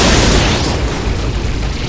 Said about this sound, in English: Emma primed the mind bomb, let it fall to the ground, and kept running. Just as the Paragons reached it, the bomb detonated.